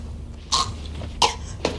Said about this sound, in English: Someone is choking. Someone is choking on that scone. So, because it's so dry.